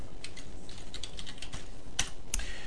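Keys clatter on a computer keyboard as a word is typed out, a quick run of light clicks with two sharper, louder keystrokes near the end, with no voices.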